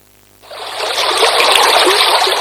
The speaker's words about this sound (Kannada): ಮಳೆ ಬಂದಾಗ ನೀರು ವೇಗವಾಗಿ ಹರಿದು ಹೋದರೆ ಅದು ಕೇವಲ ನೀರಲ್ಲ, ಜೊತೆಗೆ ಭೂಮಿಯ ಫಲವತ್ತಾದ ಮಣ್ಣನ್ನು ಕೊಚ್ಚಿಕೊಂಡು ಹೋಗುತ್ತದೆ.